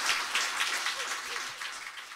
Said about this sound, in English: Ah, well-deserved applause there.